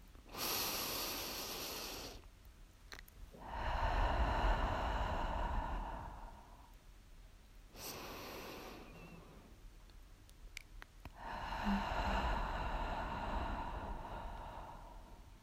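Slow, deliberate breathing in through the nose and out through the mouth. Two full cycles are heard, each a short airy inhale followed by a longer, fuller, breathy exhale, with quiet pauses between them and no talking.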